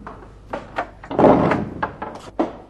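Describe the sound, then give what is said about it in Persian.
Knocking on a door: several dull, moderately loud thumps in an uneven rhythm, broken by a longer rumbling thud midway, with no voices. “یه دفعه دیگه در بزن. کیه؟”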